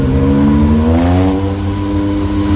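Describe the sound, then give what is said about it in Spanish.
A car's engine roars loudly in a chase across a highway bridge while the car corners, giving a steady mid-pitched droning growl with strong harmonics and no voices. “La persecución por encima del puente de la autopista. Una rueda como curvea.”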